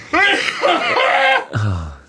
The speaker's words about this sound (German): Warte! Ich muss husten!